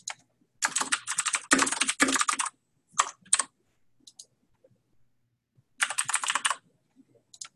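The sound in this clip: Typing on a computer keyboard while an address is entered into a property form. Fast clusters of crisp key clicks come in a few separate bursts, with silent pauses between them.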